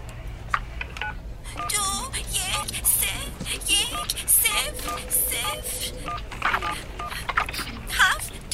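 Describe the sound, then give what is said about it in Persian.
Telephone keypad dialing tones sound as a number is punched in, with a string of many short, clipped electronic beeps in quick succession. People talk over and between the tones. “دارم زنگ میزنم بابا”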